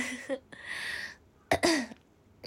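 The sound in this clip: Throat clearing from someone with a habit of it: a couple of short, raspy, guttural bursts with a rougher stretch between them, heard alone without talk.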